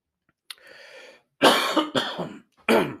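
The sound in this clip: Coughing and throat clearing from someone with something stuck in the throat: a rough, rasping clear followed by a few harsh, loud coughs in quick succession, with no talking.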